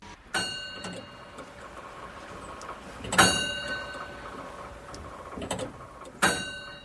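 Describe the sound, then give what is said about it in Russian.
An astronomical clock's mechanism at work: a few sharp mechanical clacks, spaced seconds apart, rise over a faint, steady background of the turning works. “Описывает работу астрономических часов Ян Халупский.”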